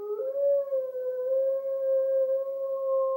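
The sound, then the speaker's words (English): A wolf-like dog lets out one long wailing howl, a loud, clear, steady tone held unbroken for about three seconds with only a slight waver in pitch. “It raised its head and gave tongue to its long wailing howl,”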